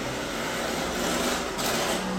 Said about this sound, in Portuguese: Hoje o moço da moto está participando bastante.